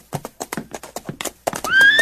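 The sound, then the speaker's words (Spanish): Horses gallop with quick, rhythmic hoofbeats in an uneven clatter, and a loud, high whinny rises out of them near the end. “Nos estábamos preguntando si podríamos alquilar aquí algunos caballos descansados. Estamos yendo a todo galope hasta la ciudad”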